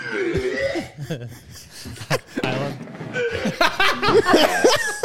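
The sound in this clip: Vomiting sound effect from a soundboard button: a run of throaty, gurgling retches and voiced heaves that rise and fall in pitch, with short splutters, lasting about five seconds.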